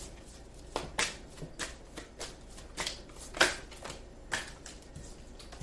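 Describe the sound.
Tarot cards are shuffled and drawn, giving many soft, papery riffles and flicks in uneven bursts, some sharper snaps standing out, with no talking.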